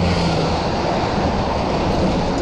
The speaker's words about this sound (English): There goes the first road train of the day.